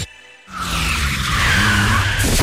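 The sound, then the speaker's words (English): Car tyres with badly worn tread skid in a loud, sustained screech that starts abruptly after a brief lead-in and holds steady to the end. “that's what happens when your tyres have less tread than a pair of old thongs.”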